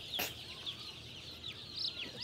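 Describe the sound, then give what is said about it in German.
Peeping from a chick, a few faint, thin, high cheeps scattered over a soft steady hiss, with no talk. “Iris auffälliges Küken findet sich auch ohne Brille wieder. Der hat so Rallye-Streifen.”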